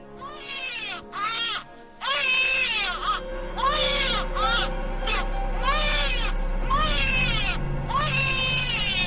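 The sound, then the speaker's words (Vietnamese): A newborn baby cries at midnight: many drawn-out, high, wavering wails broken by short gasping pauses, loud and insistent, with a faint low rumble beneath. “Vậy là cứ mỗi đêm đúng 12 giờ lúc niệm bùa, lại có tiếng trẻ sơ sinh khóc vang lên đến buốt lòng.”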